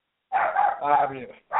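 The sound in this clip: A dog barks in a short outburst: a drawn-out, yowling bark, then the start of another, fairly loud with no other sound.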